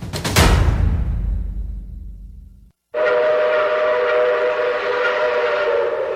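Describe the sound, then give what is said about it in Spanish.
A metro train arrives at a station with a loud rushing hiss that fades away, a brief silence, then a steady tonal whine and drone that holds to the end. “Próxima estación Floresta. Estación con acceso a Fitosalud.”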